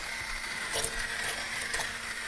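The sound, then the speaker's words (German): A hand blender purees a sauce with a steady, continuous whirring hum that holds a fairly even level throughout, with slight surges in intensity. “Ich püriere dann jetzt mal hier so ein bisschen die Soße durch.”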